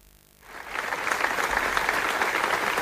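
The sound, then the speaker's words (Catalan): Applause from a crowd at a memorial gathering in Manresa begins after a moment of near silence, then swells quickly into steady, sustained clapping that holds evenly to the end. “I aquest és el so d'una de les tres concentracions que hi ha hagut de record a la víctima, en Carles, en les darreres 24 hores a Manresa.”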